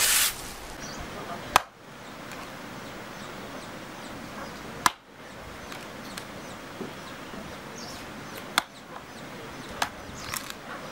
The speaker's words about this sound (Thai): 拿黑椒，拿黑椒， 阿弟哩， 嘛啊？黑椒来切它噻。